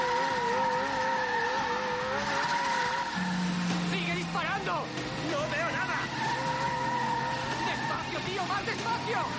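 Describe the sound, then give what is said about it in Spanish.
A car in a chase brakes intermittently, its tires squealing and skidding over the engine's roar in repeated bursts within a busy, layered mix. “De nuevo en la persecución, Ethan divisa a lo lejos a un camión. La espía comienza a frenar intermitentemente y a producir una cortina de humo que dificulta la visión de los enemigos.”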